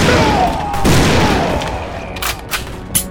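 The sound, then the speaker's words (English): Rifle gunfire in a western drama: a dense, loud burst of shots is followed by a few sharp, separate reports that cut through a rumbling background. “In the bunkhouse, Ring was proven deadly with a rifle.”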